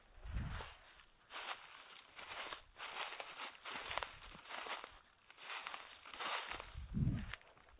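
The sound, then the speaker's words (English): Footsteps of a person on an evening walk outdoors, a soft, faint and fairly steady series of crunching steps with light rustling between them. “So this is me taking actually a nightly walk right before the show. Can hear that.”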